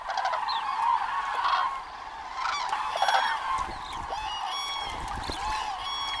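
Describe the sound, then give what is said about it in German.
Cranes call before dawn as adult and young birds gather to set off together on migration. Many overlapping honking, trumpeting calls form a steady, loud chorus throughout. “Kraniche sind Frühstarter. Noch vor Sonnenaufgang fliegen die ersten los und geben damit das Signal, dem alle anderen folgen.”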